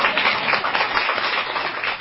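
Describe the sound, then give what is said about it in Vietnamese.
Audience applause at a Buddhist dharma talk: a dense, steady wash of clapping that holds an even loudness throughout. “Đúng, vỗ tay đi.”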